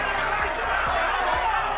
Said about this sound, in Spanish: Este es el sonido de los incidentes por aquellos altercados que obligaron a suspender la sesión.